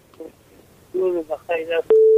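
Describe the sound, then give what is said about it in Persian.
A single short, steady telephone line tone sounds as a caller's line is connected, coming right after a stretch of talk. “یک تماس دیگر رو وصل می سازیم، بشنیم کدام نازنین است، از کجا تماس گرفته.”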